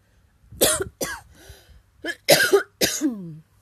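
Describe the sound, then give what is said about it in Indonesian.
Coughing, a few harsh bursts in a row with short gaps, the later ones louder and partly voiced, heard alone without speech. “maaf pakai acara batuk ya”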